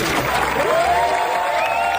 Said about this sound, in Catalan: Ara sí, sisplau. Demano un fort aplaudiment per al gran Sir Peter